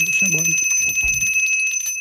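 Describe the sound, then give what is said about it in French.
A small bell rings with a bright, sustained metallic tone that holds steadily across the whole moment, with some voice sounds underneath. “Maudite clochette.”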